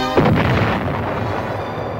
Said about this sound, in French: Je vais vous faire écouter d'abord le son d'une bombe atomique.